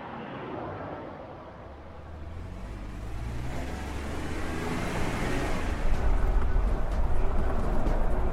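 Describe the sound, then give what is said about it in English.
A minivan driving along a remote stretch of road, giving a broad, steady rumbling drone that grows gradually louder and brighter toward the end, with no talk over it. “Would you believe it's a minivan on a stretch of road in the middle of nowhere?”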